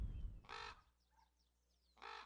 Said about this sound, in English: Now we've got a raven coming over our head.